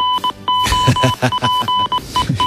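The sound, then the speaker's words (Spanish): A football goal-alert jingle plays as a bright run of quick electronic beeps over voiced, musical tones. The beeps come in a fast, choppy rhythm and are loud throughout. “Suena el aviso de gol en de tiempo de juego.”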